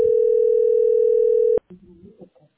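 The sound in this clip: Steady telephone dial tone from a second phone holds a constant pitch for about a second and a half, then cuts off abruptly; brief talk follows.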